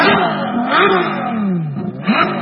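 A car engine revving, from a car built between 1994 and 1996 with a top speed of 315 km/h. The loud, continuous roar surges up and down in pitch.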